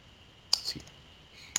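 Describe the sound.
Computer mouse clicks while working in a software tracing tool: two sharp, bright ticks separated by about a second, with a softer muffled tap shortly after the first.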